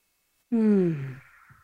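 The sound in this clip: A single deep breath during a guided breathing exercise, heard as one voiced, sigh-like exhale that starts abruptly, falls slightly in pitch and fades out, alone without talk.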